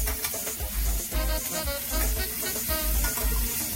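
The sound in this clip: Food sizzles and fries in a skillet in a steady, dense crackle that stays loud throughout, with no voices.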